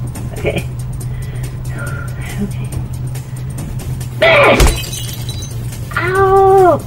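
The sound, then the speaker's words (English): A fist punches out a car's brake light from inside the trunk with a single sharp, loud crack after quiet talk. A voice cries out right after the hit. “So, I punch through the brake light? Just go ahead and punch that brake light out and flag somebody down.”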